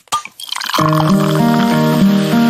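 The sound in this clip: A Cusqueña beer bottle is opened and poured: a sharp pop, then a short fizzy gurgle of liquid, followed by steady musical tones that ring over the pouring.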